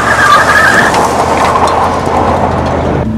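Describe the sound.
A car driving close to a cliff edge on the road to Iquitos: loud, steady engine and road noise with a high squeal in the first second, cutting off abruptly just after three seconds.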